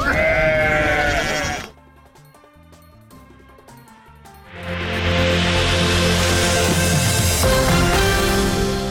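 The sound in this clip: Sheep bleat among nomads' livestock in Kandahar, with wavering bleats at the start. A quieter stretch follows, then a louder, dense, noisy passage.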